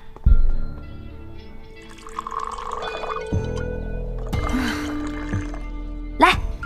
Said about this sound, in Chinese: 哼，一会儿再洗，突然想喝点了。